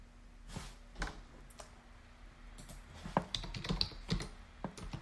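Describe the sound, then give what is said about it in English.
Typing on a computer keyboard: many quick, irregular key clicks over a steady low hum, with a few louder taps toward the end and no talking. “And here I am typing in some stuff.”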